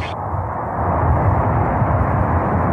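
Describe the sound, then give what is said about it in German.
The main engines of the Progress MS-34 rocket ignite at launch from Baikonur, a broad, dense roaring rumble that swells louder after the first second and then holds steady. “We have a go for engine start. Предварительное. We have main engine start.”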